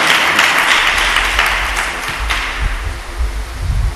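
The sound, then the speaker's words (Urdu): A church audience applauds loudly with dense, sustained clapping that eases slightly midway, then swells again toward the end. “یسوع کے لیے ذرا زوردار تالیاں دیں”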